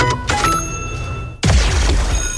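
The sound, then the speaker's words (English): A bell rings to mark the end of the work and school day: a sustained metallic tone is followed by one sharp, louder strike that rings on with bright overtones. “The final bell is rung.”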